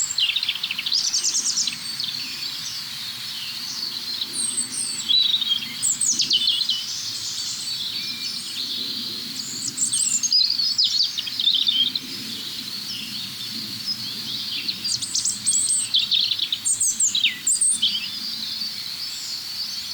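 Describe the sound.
Several birds sing at once, their overlapping high chirping phrases and trills from different individuals blending over a faint low background rumble, continuing steadily for about twenty seconds without voices.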